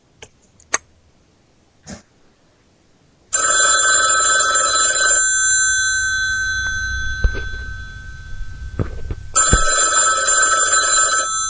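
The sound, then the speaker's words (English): A telephone is dialed with a few soft clicks, then a loud electronic ringing tone sounds, pauses over a low hum, and rings a second time. “I think this button will dial...”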